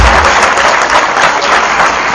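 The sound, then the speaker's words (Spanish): Loud applause from a crowd called for in honour of a man, a thick and continuous wash of clapping that stays strong from start to finish. “Un aplauso al señor.”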